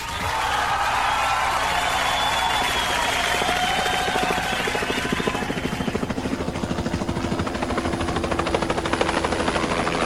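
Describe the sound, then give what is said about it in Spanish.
A helicopter taking off from a heliport: a loud, continuous roar of rotor and engine with a rapid, rhythmic blade chop that grows more pronounced toward the end, and a thin whine in the first half. “hubiera pedido el helicóptero de la radio Carnaval que tenemos acá en el helipuerto. Atento, despegando.”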